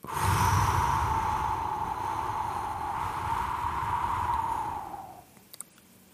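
A slow, steady breath out lasting about five seconds as part of a calming breathing exercise: an even, breathy hiss that holds its level, then stops abruptly into near silence.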